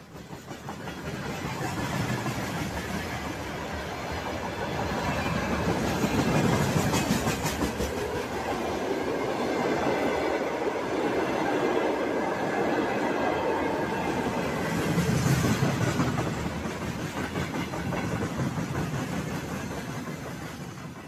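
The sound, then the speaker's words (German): Freight train wagons carrying tanks, howitzers, rocket launchers and other military equipment from central Russia and Siberia toward the Ukrainian border. They roll past in a continuous heavy rumble with rhythmic rail clacking that swells and eases over time. “Das sind Güterwaggons, auf denen Panzer, Haubitzen, Raketenwerfer und allerlei militärisches Gerät aus Zentralrussland und Sibirien”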